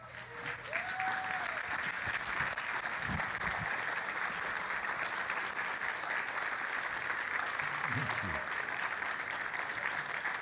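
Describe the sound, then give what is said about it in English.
Sustained applause from a church audience giving a standing ovation to a guest preacher, a steady, even roar of many hands clapping that fills the whole span without a break. “My goodness, normally the standing ovation comes at the end of the service, but that's beautiful.”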